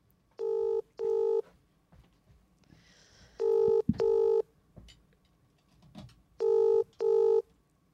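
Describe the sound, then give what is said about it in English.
Phone ringing tone on speakerphone: three pairs of steady, buzzing double rings separated by pauses, with faint background noise between them and no voices. “Okay, I'll ring my mum. Okay, I'll put it on speaker.”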